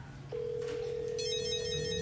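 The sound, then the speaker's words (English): A mobile phone rings inside a drawer: a steady electronic tone starts shortly in and holds without a break, and a brighter, layered ringing tone joins it partway through. There is no talk. “Principal Vogler's phone is in the drawer, too?”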